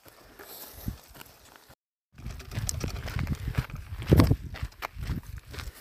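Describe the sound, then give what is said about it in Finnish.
Footsteps marching along the Koli hiking trail, many irregular crunching steps that stop briefly in a silent pause and then go on, at moderate loudness. “Täällä vaan marssitaan kolinpolkua pitkin.”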